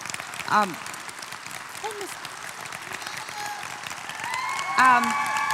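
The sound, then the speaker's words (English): Audience applause at a pastor-led gathering as a woman leader comes to the stage: steady, dense clapping throughout, with a voice briefly speaking over it. “And I want you to give her another good hand right now as she comes.”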